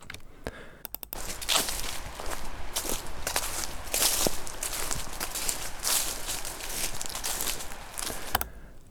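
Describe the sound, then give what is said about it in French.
Footsteps tramping through grass: a steady run of many soft, swishing crunches as blades rustle underfoot, with a few sharper clicks near the start and a dense, continuous texture throughout. “Ça. Des pas dans les herbes. Ok, des pas dans les herbes.”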